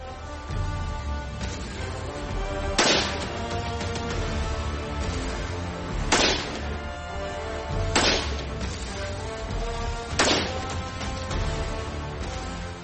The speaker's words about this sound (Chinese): 所以我们先在不安消音器的情况下进行射击。